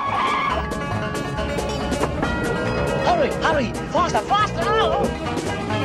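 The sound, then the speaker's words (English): A car speeding off out of a yard, its engine roaring steadily with squealing tyres rising and falling in several sharp whines over a dense, loud background. “The car speeds off out of the Steptoe's yard.”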